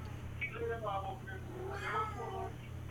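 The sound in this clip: A cat in a hotel room meows twice, giving drawn-out, wavering cries over a steady low electrical hum.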